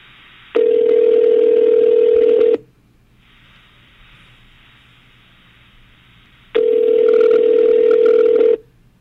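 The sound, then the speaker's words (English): An outgoing phone call rings through toward voicemail: two long, steady ringback tones of about two seconds each, separated by a quiet gap, over a faint low hum. “He gets a voicemail, very angry.”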